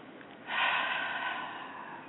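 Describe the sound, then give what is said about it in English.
A single deep breath is drawn in faintly, a soft, airy rush that begins after a brief quiet moment and continues steadily to the end. “So, again, you can take a deep breath.”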